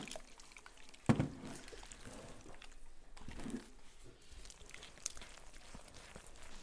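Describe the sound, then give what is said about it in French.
Water poured gradually into Moroccan bread dough gives a faint, steady trickling with a couple of brief, louder splashes. “Après, Ajoutez l'eau petit à petit.”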